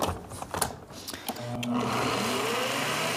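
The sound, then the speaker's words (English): Blender blending ingredients, including whole garlic cloves, for a pizza sauce. Brief talk and clatter come first, then a loud, steady, high-pitched motor whir runs to the end. “And we don't need to chop it up because it's going to be blended nicely. So all ingredients in and we're away.”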